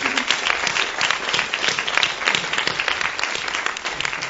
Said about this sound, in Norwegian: Ska vi ge dem en applaus? Ja, så det syns vi ska.